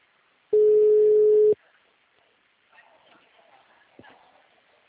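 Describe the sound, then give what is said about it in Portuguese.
Telephone ringback tone while a call is placed: a single steady, mid-pitched buzzing tone about one second long, followed by near-quiet with faint rustling. “Vou ligar, vou tentar ligar para ela primeiro.”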